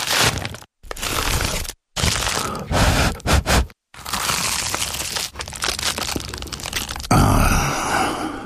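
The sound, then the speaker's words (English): Bites into an award-winning Dad's Pies pie give a few loud, crackly bursts of crunching pastry, separated by brief silences, the last one dense and sustained. “That was the sound of an award-winning dad's pie. Your mouth can take it from here.”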